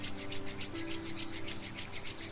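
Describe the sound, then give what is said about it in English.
Palms of the hands rub briskly together in many quick, even back-and-forth strokes, a soft rhythmic swishing that runs steadily throughout. “Now, rubbing the palms together, smile.”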